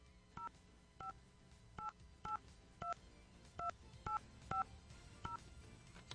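Telephone keypad tones as a number is dialed to call a prize winner: nine short, clear beeps at an uneven pace over faint background hiss.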